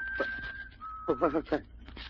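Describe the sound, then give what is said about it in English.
An eerie, bird-like whistle holds a steady high tone for about a second, then gives way to a voice speaking. “Sounds like a bird, maybe. Birds don't whistle like that.”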